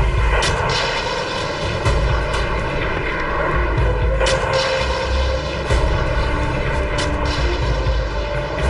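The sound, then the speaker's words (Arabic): Missiles launching with a sustained, loud, engine-like roar over a deep low rumble that carries evenly through the whole clip. “وميض كالبرد وصوت كالرعد ملأ الأفق، انطلق الصاروخان.”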